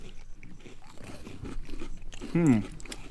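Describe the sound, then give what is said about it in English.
Crunchy bites into an Oreo sandwich cookie: quiet crisp cracks and chewing, faint overall, with a short voiced murmur near the end. “Normally, I twist the creamy thing and then put it together. I just bite it. Yeah. I'm gonna bite the chocolate.”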